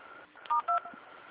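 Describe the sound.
Two short touch-tone dialing beeps during a telephone call transfer, clear and evenly spaced over faint, narrow-band line hiss.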